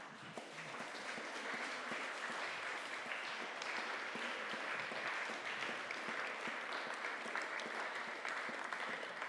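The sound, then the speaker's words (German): Applause at a 60th wedding anniversary celebration, with dense, even clapping that continues steadily for about nine seconds at a fairly soft level, without a clear peak or fade. “Das ist, glaube ich, mal ein Applaus wert.”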